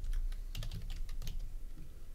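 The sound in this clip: Keys clatter on a computer keyboard as someone types a short search word, a quick run of crisp clicks that bunch together in the middle and thin out toward the end, with no voices.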